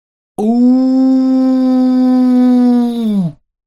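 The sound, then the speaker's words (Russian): A wild, piercing vampire howl: a single loud, sustained cry of about three seconds. It holds a steady pitch, sounds alone, and sags slightly in pitch as it cuts off. “Затем единство распалось, и окрестности огласил дикий истошный вой.”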